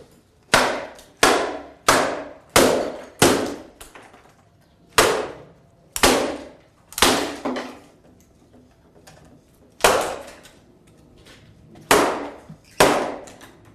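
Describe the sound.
Heavy blows strike the remains of a smashed guitar, its neck still attached. Many sharp, loud impacts come in an uneven rhythm, some close together and others after longer pauses, each followed by a short ringing decay.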